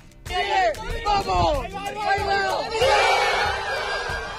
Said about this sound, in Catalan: Així de contents estaven els estudiants de la Universitat Politècnica en veure com el coet Origin ha arribat als 10,8 quilòmetres d'altura.